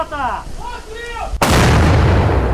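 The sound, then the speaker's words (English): Artillery fire on the front lines, with Ukrainian troops shelling Russian positions: after a brief stretch of a voice speaking, a sudden loud blast erupts and rolls on as a sustained, heavy rumble to the end. “Ukrainian troops have been firing artillery at what U.S. officials say is an unsustainable rate as they try to break through Russian front lines.”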